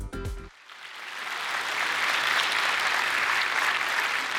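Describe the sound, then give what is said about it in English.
A church audience applauds to welcome a guest pastor. Dense clapping swells after a brief spoken phrase and holds steady and full to the end. “Life Center, would you put your hands together and welcome Pastor Ryan Oletsky.”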